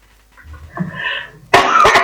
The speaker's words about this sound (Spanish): Y yo con mi tos.